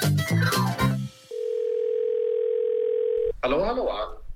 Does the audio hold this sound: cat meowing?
no